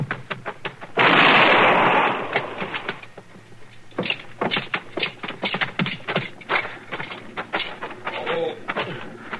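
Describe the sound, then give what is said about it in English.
Gunshot in a radio western drama: one loud, noisy blast that rings for about a second, followed by many quick, sharp taps. “Oh, shoot a man down. You shouldn't have run.”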